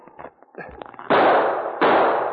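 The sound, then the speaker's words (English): Rifle gunfire during a skirmish among trees: two loud, sharp blasts, each with a long, rough, decaying roar, after a few faint clicks and rustles. “The men among the trees showed themselves for the barest second when they fired, and the sergeant missed his target several times.”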